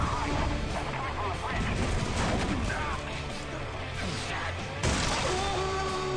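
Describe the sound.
Explosions from a bombing raid form a dense, continuous, loud barrage of blasts and crashes, with a sharper burst near the end and voices mixed into the din.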